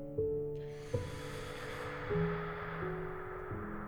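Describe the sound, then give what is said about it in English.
A deep breath drawn in slowly, a soft, airy hiss that swells and fades over about two seconds above a quiet, steady musical drone. “Snuggled in, take a full deep breath in”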